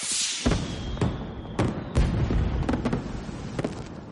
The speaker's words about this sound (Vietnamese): Trong nháy mắt, pháo hoa bùng nổ, rực rỡ vô cùng.